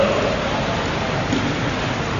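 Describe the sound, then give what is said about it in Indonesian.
Steady hiss of falling rain, a dense, even wash of noise that holds at the same fairly loud level from start to finish, with no separate drops or thunder standing out. “Hujan ya.”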